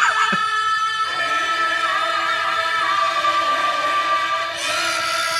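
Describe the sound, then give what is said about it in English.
A classic panic-button siren sound effect: a loud, continuous electronic wail with steady tonal bands that holds for the whole stretch. “The panic button, for those of you who don't know, will sound something like... What do we got? We're just going to go with this one. It's the classic. Yeah, that's a good panic button.”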